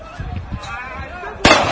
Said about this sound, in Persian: این فیلم میگه که نیروهای لباس شخصی اسرائیلی هستن که دارن تیراندازی میکنن به طرف کسانی که در اون شیخ جراح